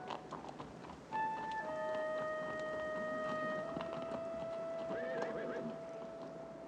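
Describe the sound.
Riders move off slowly on horseback, hooves clip-clopping steadily. Partway through, one horse gives a long whinny before the hoofbeats continue alone.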